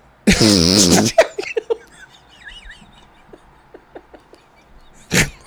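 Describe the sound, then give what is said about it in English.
A turtle farts in a loud, buzzy, drawn-out blast, followed by faint scattered chirping squeaks and one more short, broad burst near the end. “what's wrong with a turtle just farting here?”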